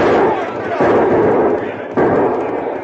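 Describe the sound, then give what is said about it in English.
Gunshots ring out during an Old West shootout in a town. Three loud, booming shots land about a second apart, and each one trails off in a long rumbling decay. “Those fellas shoot mighty poor.”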